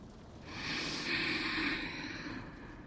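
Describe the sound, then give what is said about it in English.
A person takes a slow, deep breath during a leg-raising exercise routine: one soft, airy breath of about two seconds, quiet and breathy, with no talk. “Okay, take a breath.”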